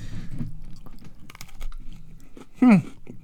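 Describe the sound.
Someone chews and crunches Teddy Graham snacks, giving muffled, steady mastication with soft crunches. One louder crunch comes near the end.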